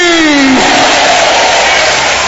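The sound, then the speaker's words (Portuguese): A church audience applauds and cheers during a service. The sound is a dense, loud, steady wash of clapping and voices that runs through the whole stretch without a break. “É de alegria, aplauda Jesus. Diga glória a Deus aí.”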